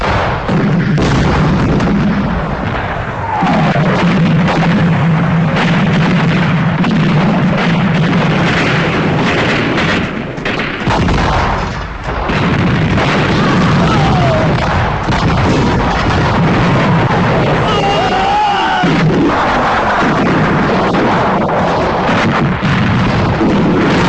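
Dense, continuous barrage of artillery fire and explosions, loud and rumbling throughout, with overlapping blasts and no clear pauses between them.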